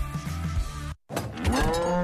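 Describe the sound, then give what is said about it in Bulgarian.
A dairy cow moos twice, two loud, drawn-out, rich lowing calls split by a brief moment of silence. “Мамо, крава ли имаме в хладилника?”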